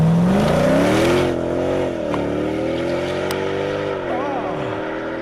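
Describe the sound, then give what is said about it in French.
A car engine revs through its exhaust with a loud, continuous rumble. Its pitch climbs over the first second, then holds with small waverings and dips briefly near the end. “montre-moi du pot d'échappement, vas-y là.”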